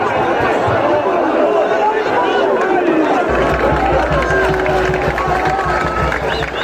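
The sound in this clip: A football crowd at Spain's final lets out a long collective groan at a missed chance, a dense, sustained wash of many voices that stays loud throughout.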